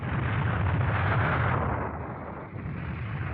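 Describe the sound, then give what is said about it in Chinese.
Radio-drama battle effect of guerrilla fighters clashing with enemy soldiers: a dense, continuous rumble of explosions and gunfire, loud throughout, dipping briefly near the middle before swelling again. “这时候隐蔽在大路两旁的赵武和民兵们听到了游击组和敌人战斗的声响”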